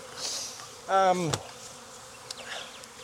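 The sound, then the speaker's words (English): Honey bees buzzing in a heavy hive box full of brood. A loud harmonic buzz sweeps past briefly and drops in pitch as it fades, over a quieter background hum of the colony. “This is a heavy ass box of bees. They got brood end to end.”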